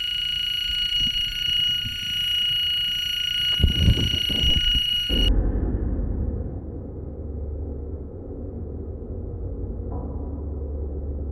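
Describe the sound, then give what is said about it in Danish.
A fire alarm goes off in the room where people are sitting for an interview. A steady, piercing high tone with bright overtones cuts off abruptly partway through, leaving a low rumbling background. “Der startede en brandalarm her, hvor vi sidder.”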